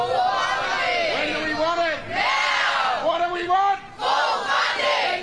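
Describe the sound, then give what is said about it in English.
A large crowd of striking Victorian public school teachers and staff shouts at a protest, their loud voices rising in chant-like bursts separated by a couple of brief pauses. “That, of course, is the sound of disgruntled teachers and other staff at Victorian public schools. They have been striking today, taking action to try and get a better deal from the Victorian government”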